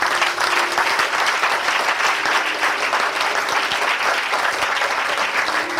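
A church audience applauds the Lord during a worship service, a dense, steady clapping that stays loud and even from start to finish.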